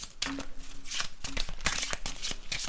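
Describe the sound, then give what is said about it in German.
A deck of question cards is shuffled by hand, giving many quick papery flicks and riffles in an uneven rhythm, fairly faint, with no talking. “Gut, dann mische ich mal durch und dann kann ich ganz spontan eine fallen lassen.”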